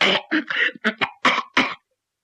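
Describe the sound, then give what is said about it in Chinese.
A voice imitates a man's urgent coughing from an itching throat: a quick run of several harsh coughs and throat-clearing bursts, loud and alone, ending in silence. “把他急得嗓子眼直刺痒，在后边直咳嗽”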